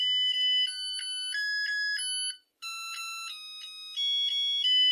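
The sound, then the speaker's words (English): A Zojirushi rice cooker plays its rice-ready melody, a bright electronic tune of clean, high-pitched beeping tones. One brief silent pause falls midway before the tune carries on steadily to the end. “That's the tune a Zojirushi rice cooker plays once the rice is ready.”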